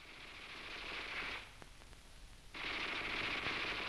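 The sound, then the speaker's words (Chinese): A Type 11 light machine gun firing in battle: faint, crisp bursts of rapid automatic fire, with a lull holding a few isolated shots before the rattling stream resumes. “哎，老葛，你听啊，那小歪把子声音多脆呀、啊！”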